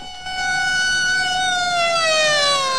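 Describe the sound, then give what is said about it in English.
Police car sirens wail as cars race up and halt, a loud, continuous electronic tone that drifts slowly lower in pitch and holds throughout, with no voices. “Police cars race up, screech to a halt, and officers pile out.”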